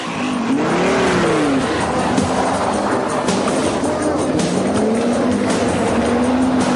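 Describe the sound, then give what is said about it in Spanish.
A motorbike and a Volvo car drive away, with a steady, loud engine rumble whose tone wavers up and down and runs continuously for the whole stretch. “La moto y el Volvo se van.”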